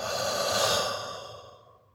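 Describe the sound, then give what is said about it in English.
A single long, breathy breath swells and then fades away over about two seconds, soft and unvoiced, heard alone. “Inhale. Exhale.”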